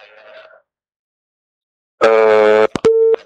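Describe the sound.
A telephone busy tone sounds after a caller's line disconnects during a call-in, loud and steady in a few clipped bursts, following a short faint voice fragment and a pause of silence.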